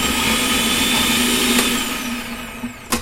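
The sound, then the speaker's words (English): Food processor motor chopping a shallot, a loud, steady whirring whine that cuts off near the end, followed by a couple of short knocks. “So I'm just going to pop that in the food processor. Pop the lid on, and then I'm going to chop that.”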